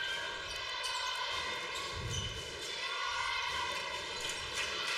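Basketball dribbled on a court during a high school girls' varsity regional semifinal game, a few dull bounces under steady crowd noise and a constant hum.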